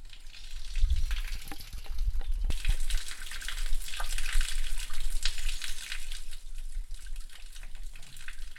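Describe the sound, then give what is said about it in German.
Steady hissing, gurgling flow from a small brook below a village, shrunk to a thin trickle on a very hot June day, continuous and even, with a few soft low knocks early on. “Was Sie hören, ist der Schweinbach, der unterhalb des Dorf Schweinbach fließt.”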